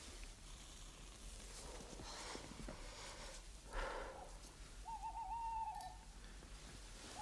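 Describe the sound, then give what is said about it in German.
A faint owl hoot: one wavering, mid-pitched tonal call rises out of soft hiss and breathy rustling, very quiet overall and with no talk. “Eine Eule?”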